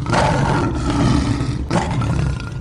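A lion roars in two long, deep, rumbling bursts separated by a brief break, loud and alone with no voices.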